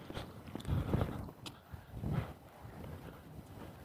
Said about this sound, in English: I gotta make the turn north and start walking along the side of the park here.